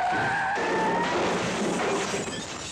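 A car skids after its steering wheel is grabbed mid-drive: a loud, continuous tire screech with thin, high whining tones that holds steady for about three seconds.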